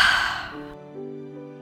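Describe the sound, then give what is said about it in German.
A deep breath in and out: a single airy, sighing rush that starts loud and fades away within about a second, leaving only soft sustained tones behind. “Nun atme einmal tief ein und wieder aus.”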